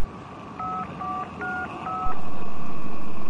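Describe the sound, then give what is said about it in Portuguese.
A telephone keypad is dialed, giving four evenly spaced two-tone beeps over a low background hiss, followed by a louder, steady rushing noise. “Vou ligar pro cara. Vou tentar ligar pro cara. Deixa eu ver se o telefone funciona agora. Liga aí.”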